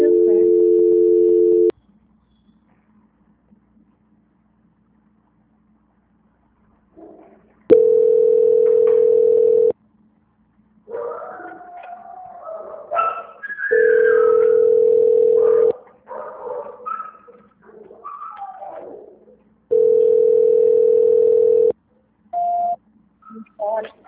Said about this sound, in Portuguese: Eu vou tentar transferir para a auditoria, por aqui que eu transfiro.